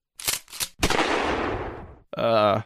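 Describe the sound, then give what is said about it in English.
Shotgun sound effect: two short sharp bursts, then one loud blast with a long fading tail, followed by a brief voiced sound. “Just gonna play a random sound effect. Da da da da da da da da. Oh yeah. Bruh. Some of my sound effects frig off. Hold on. Little shotgun action.”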